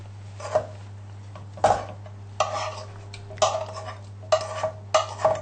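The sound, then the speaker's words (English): Mushrooms being stirred into a cheese sauce in a pan, heard as several short scraping and clinking strokes over a steady low hum. “And my mushrooms here are also ready, so I'm going to add my mushrooms to the cheese sauce.”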